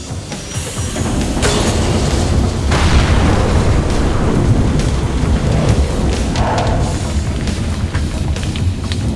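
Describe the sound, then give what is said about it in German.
A huge machine with giant gears explodes after jamming on a foreign object. The blast is a loud, sustained rumbling roar with a few heavier bursts near the start, holding steady throughout with no talk. “die Maschine explodierte und sich in Abermillionen kleinste Teilchen auflöste.”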